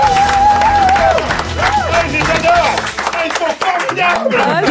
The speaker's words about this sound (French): Le public est déchaîné.